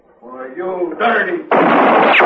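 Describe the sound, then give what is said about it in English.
A gunshot in a western radio drama: a man's voice calls out, then a sudden loud, sharp blast bursts in and its harsh noise rings on to the end. “You just shot down your brother.”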